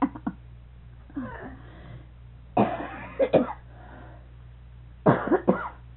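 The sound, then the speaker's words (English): A few short, raspy coughs from a person with a little cough, each coming in a brief burst with quiet pauses between them and some throat-clearing. “I'm going to try to show that little cough.”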